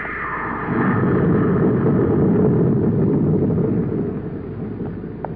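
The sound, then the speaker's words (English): Rocket blast in a space-adventure drama: a broad, rumbling roar that swells after a moment, holds steady, then eases slightly, with no talk over it. “Clear that rocket blast.”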